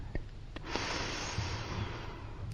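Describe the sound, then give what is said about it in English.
A deep breath in during a guided breathing exercise: a long, steady rush of airy inhalation that holds for about two seconds after a brief opening sniff, with no talking. “First, take a deep breath in”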